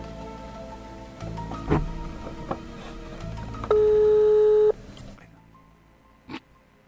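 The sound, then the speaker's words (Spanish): A phone line rings during a live call-in: a single steady, buzzing tone lasting about a second stands out over a noisy background with scattered clicks. “Estamos viendo y suena el teléfono de Rolando para ver si va a salir”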